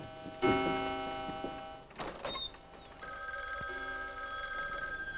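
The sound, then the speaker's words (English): A telephone bell rings in a doctor's house: a loud, bright burst of ringing, a short gap with a few faint clicks, then a steadier sustained ring that holds to the end. “that's a phone ringing in the doctor's house”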